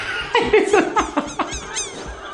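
A crow calls as part of the ambient sound, giving a quick series of harsh, rasping caws that rise and fall in short bursts at moderate loudness, with no voices.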